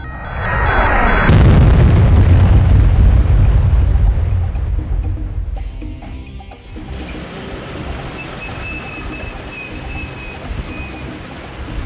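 Missiles explode and destroy a military base. A sudden, massive blast cuts off a brief high tonal hum and rolls into a long, loud, rumbling roar that slowly eases into a steady noisy wash.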